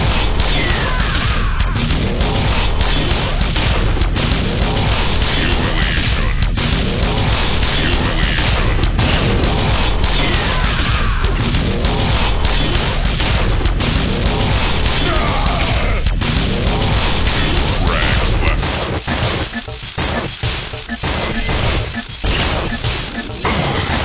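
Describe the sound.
Combat in the video game Quake Arena: a dense, relentless barrage of explosions, crashes and whooshing weapon blasts. It stays loud and continuous throughout, with a short dip near the end.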